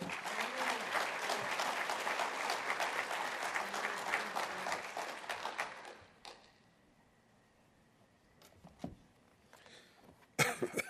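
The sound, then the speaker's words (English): An audience applauds to welcome a visiting pastor at a church gathering, with dense, steady clapping for about six seconds. The clapping fades into a quiet pause broken by a few scattered coughs and throat clearing. “Give a big hand for David.”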